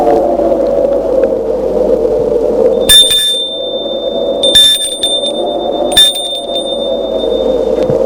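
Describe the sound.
Bell at a castle gate rung three times: sharp metallic strikes, each leaving a thin, high ringing tone, sound over a steady low drone.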